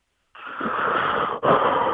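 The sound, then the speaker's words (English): A caller on a phone line takes a sharp, breathy gasp. It is narrow and tinny like telephone audio, and a brief break near the end splits it into two pushes of air. “I like the extra breath there.”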